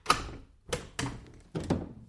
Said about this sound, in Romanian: Însă Iedu cel mare se dă după ușă și să tragă sau să nu tragă. În sfârșit, trage zăvorul.